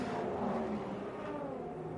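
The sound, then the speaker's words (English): Race cars roar past at speed: a loud, continuous, dense engine drone that holds steady for the whole short stretch, with no voices. “Here they come past us now. Oh, that is incredible how many cars have just gone past me at pace.”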